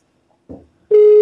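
Telephone busy signal after dialing a pharmacy's number: a brief muffled knock, then a loud, steady single tone that starts and holds unbroken to the end.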